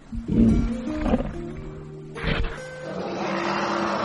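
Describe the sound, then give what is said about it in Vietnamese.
An elephant roars in a loud, harsh burst near the start, followed by a second roar partway through, then a steadier, noisier rumble that carries on to the end. “Không sợ hãi. Quả Tượng gầm lên kiêu hãnh.”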